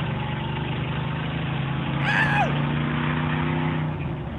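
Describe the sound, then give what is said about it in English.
A car driven hard gives a steady, low engine drone under heavy throttle. Midway, a brief high squeal falls sharply in pitch, then the drone carries on. “Go in there and drive it like you stole it. And so, show us that. So we did. I did. This is us driving the mock.”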